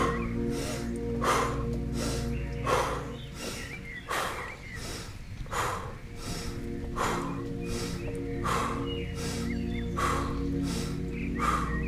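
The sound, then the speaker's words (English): Breathing in through the nose and out through the mouth, repeated as quick, rhythmic breaths, many in steady succession over a soft sustained tonal background, with no talk. “Inhale nose. Exhale mouth for 30 seconds. Here we go.”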